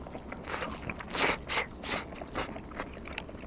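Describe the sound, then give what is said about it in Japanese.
Biting into deep-fried pufferfish karaage: several faint, crisp crunches of the fried coating in a loose rhythm, each a short bright crackle, with no talk over them. “そして次にいただくのがこのフグの唐揚げ。これがまたうまそうですね。このフグっていうのは本当身がプリプリしていて、余計な骨がないからすごい食べやすいんですよね。いただきます。”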